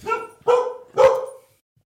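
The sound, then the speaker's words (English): Dogs barking, a border collie and a Havanese, give three sharp, loud barks in quick succession with no talk around them. “You guys can hear the dogs barking. So they have a border collie.”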